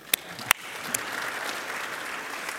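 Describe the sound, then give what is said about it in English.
Light applause from an audience during a cardiomyopathy lecture, starting with a few sharp, separate claps and settling into a faint, soft patter. “is I heard some round of applause. Yeah. Now, if you get 95% or better on an answer and it's correct, you can give yourself a round of applause.”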